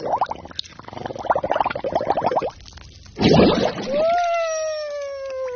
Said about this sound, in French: Mais qu'est-ce que tu fais à barboter dans le lavabo?